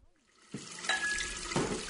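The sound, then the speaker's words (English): Hands are washed under a running tap, a steady, faint hiss and splash of water that begins abruptly after a short quiet moment and continues without pause. “Slimy, you're not washing your hands again, are you, dear?”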